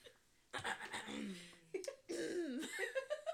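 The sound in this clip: Coughing from dirt caught in the throat comes in a few rough, fairly faint bursts, with voiced, laugh-like sounds mixed in between the coughs.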